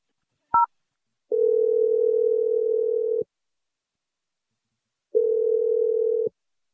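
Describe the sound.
Telephone line tones while a call is placed: a short higher beep, then two long steady mid-pitched tones, each about two seconds, separated by a silent gap.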